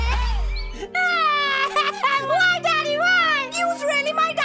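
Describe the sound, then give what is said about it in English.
A child cries, sad and angry: continuous high wailing with a strongly wavering pitch that carries on loudly from start to end after a brief low rumble. “Hear that? That's the sound of your child. Sad, angry.”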